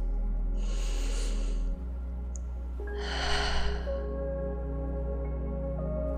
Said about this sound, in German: Atme tief ein durch die Nase und atme aus durch den Mund.